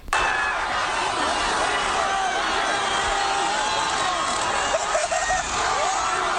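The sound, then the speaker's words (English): Loud crowd roar in a Philadelphia street after a Super Bowl victory as people flip over a Toyota Prius, steady shouting and cheering that fills the whole stretch with no clear pauses. “This is what happens to Toyota Priuses if they sit idle in the middle of Philadelphia after a Super Bowl victory.”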